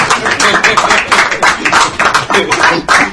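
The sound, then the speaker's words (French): A church audience applauds with loud, rhythmic clapping, many claps falling in a quick, fairly even beat, with some voices mixed in. “Applaudissons pour le Isaac d'Edea. Applaudissons. Applaudissons parce que vous êtes jaloux.”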